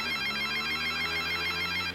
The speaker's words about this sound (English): I'm walking in the street. My phone is ringing. Who's calling?